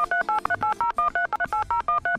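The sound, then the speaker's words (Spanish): Telephone keypad tones dialing a number to call computer tech support, a rapid run of many short, steady beeps, each cleanly separated, with no voices. “A ver, venga, le marcamos a este hijo.”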